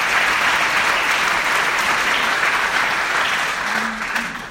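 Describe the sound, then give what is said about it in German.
Loud, continuous audience applause greets a state secretary at a formal gathering, many hands clapping densely throughout and easing slightly only at the very end. “Herzlich willkommen. Applaus”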